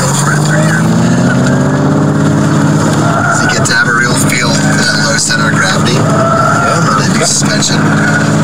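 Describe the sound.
A car engine revs with a wavering, droning pitch as the car spins around doing cone work, the sound continuous and loud beneath steady talk.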